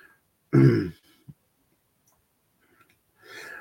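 Someone clears their throat in one short, gruff burst, followed by a faint click and a stretch of quiet before a soft sound rises at the end.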